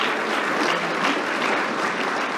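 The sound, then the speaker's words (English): Congregation applause in a church: dense, even clapping from many hands holds a steady loudness throughout, with no voices over it. “Let's give our Lord our applause.”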